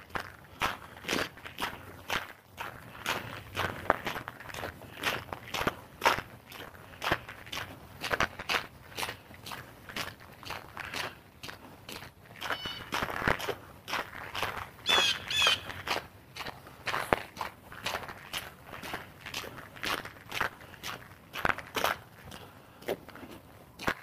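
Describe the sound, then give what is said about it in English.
Footsteps crunching over small, nubbly ice: many quiet, gritty steps in a steady walking rhythm, each with a brittle crackle. “but it's little nubbly ices, and they make the walking feel quite uncertain.”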